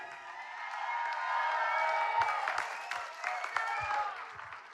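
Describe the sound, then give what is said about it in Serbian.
Audience applause and cheering greet a band's keyboardist and accordionist at a live show: dense, steady clapping swells and holds throughout, with scattered whistles or shouts rising above it. “Jedan veliki aplauz, Boris Stasev.”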